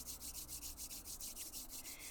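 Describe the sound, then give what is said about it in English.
Palms rubbed briskly back and forth to build heat before a breathing practice, a rapid, even swishing friction with steady strokes repeating several times per second. “From here, we'll begin to rub our palms back and forth, generating some heat and activating the energy within.”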